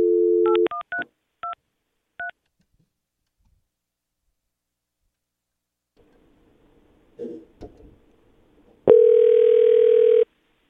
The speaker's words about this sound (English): Can I dial out with our warm line, or is that not a dialer outer?